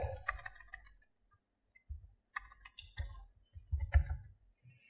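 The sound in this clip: Typing a word on a computer keyboard into a translation website produces faint, sparse key clicks in a few short clusters separated by pauses.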